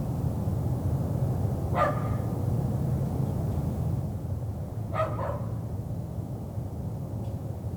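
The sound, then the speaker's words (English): A dog barks outdoors, a few short, faint barks spaced apart over a steady low background hum, with no rain and no voices. “And there's a dog out there barking at absolutely nothing.”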